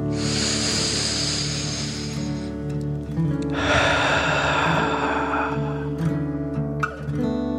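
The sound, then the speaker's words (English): A slow breath drawn in, a short pause, then a long airy breath out, heard over soft sustained music with no talk. “Let your arms float down and breathe in and out.”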